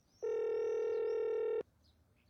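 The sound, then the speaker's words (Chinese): A single steady electronic telephone tone lasting about one and a half seconds, sounded while a number is keyed on a hallway phone. A faint second tone begins right at the end. “有燕来到走廊，拿起放置于走廊中央的电话，心急地按下了号码。”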